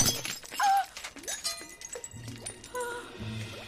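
A fake glass ruby is smashed, giving a sharp shatter followed by scattered tinkling fragments and light clinks over a few seconds.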